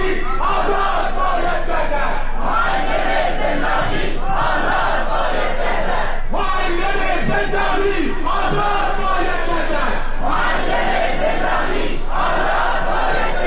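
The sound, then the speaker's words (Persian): A protest crowd in Sanandaj chants loudly in repeated, rhythmic bursts, many voices shouting together in regular phrases with short gaps between them. “ما به سنندج بریم برای لحظاتی و صدای اعتراضات سنندج رو بشنویم و برگردیم.”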